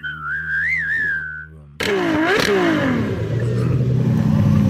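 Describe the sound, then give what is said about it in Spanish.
A car engine revs in loud surges with rising and falling pitch, preceded by a wavering whistle-like tone that fades before the engine noise bursts in. “Voy a echar gasolina aquí, carajo. Aquí traigo mi Ferrari.”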